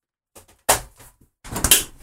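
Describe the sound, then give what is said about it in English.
A Dometic fridge door being shut: a few sharp knocks and bumps, then a denser cluster of thuds and light rattles near the end, with short silences between them. “Let me put it back in the fridge.”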